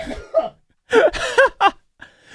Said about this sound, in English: That was such a hefty cough there. Did you choke on, like, did the Zin go down?